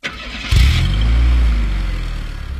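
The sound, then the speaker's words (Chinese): A car engine starts with a brief cranking burst, then catches into a loud, steady low rumble that eases off slightly as it idles. “发动了车子”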